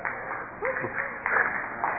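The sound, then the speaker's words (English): Audience applause breaks out after a comedian mentions a movie: a steady wash of clapping, moderately loud and muffled, with a brief voice near the start. “Oh, I get an applause for a movie.”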